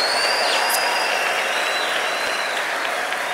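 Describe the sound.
Dense applause and clapping for God at a worship service, a steady, continuous wash of many hands clapping together with no break throughout.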